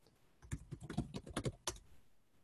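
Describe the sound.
Typing a password on a computer keyboard: a quick, irregular run of faint keystroke clicks, then a pause and one more tap.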